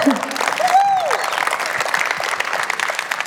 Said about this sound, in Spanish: Recuerde el aplauso